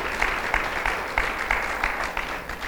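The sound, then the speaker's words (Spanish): An audience applauding during a church service: steady, sustained clapping from many hands, overlapping into a dense wash at moderate volume. “¿Por qué no le dan un aplauso a Cristo?”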